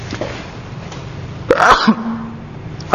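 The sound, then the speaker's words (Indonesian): A man sneezes once during an online religious lecture, a sudden sharp burst rising out of a quiet background, followed by a brief faint vocal sound. “Antum tenang ya, walaupun ana bersin karena ini kajian online.”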